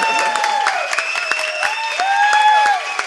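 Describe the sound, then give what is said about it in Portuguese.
An audience gives a speaker steady applause, a dense patter of many hands with several voices calling out over it. “vou pedir uma super salva de palmas para o Diego Grando”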